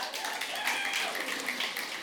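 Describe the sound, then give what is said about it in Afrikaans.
An audience clapping hands makes a dense, unbroken patter of many claps that holds at a steady, moderate level throughout. “Luister, geef vir hom 'n lekker handeklap.”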